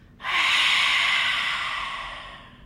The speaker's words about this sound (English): Open your mouth, exhale from the mouth.